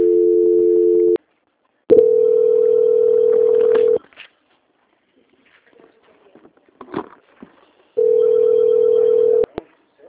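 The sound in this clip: A telephone ringing tone plays while a call is being transferred: three long, steady mid-pitched tone bursts separated by quiet gaps with faint clicks, and no voices.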